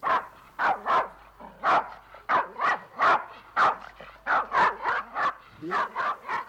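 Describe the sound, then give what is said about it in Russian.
A dog brought home from a bird market barks and yaps many times in quick, irregular bursts. The sharp, loud barks have short gaps between them. “в доме появилась собака”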